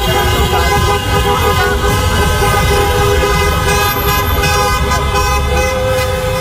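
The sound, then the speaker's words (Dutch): Car horns honking continuously from celebrating football fans driving around city streets after a match, loud overlapping blaring tones sustained over steady engine and traffic noise. “Na de wedstrijd gingen dan op tal van plekken in de stad ook feestvierende voetbalfans de straat op om rond te rijden.”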